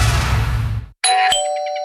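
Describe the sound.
A doorbell rings in a two-tone ding-dong, bright clear chime tones sounding right after a short burst of noise and a brief gap, then ringing out and decaying.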